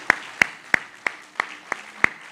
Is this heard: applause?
yes